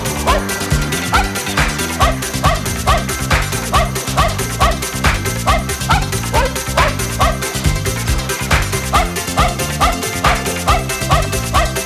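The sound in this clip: A small dog barks in many short, sharp yips repeated in a steady rhythm, set against a busy musical backing with no one talking.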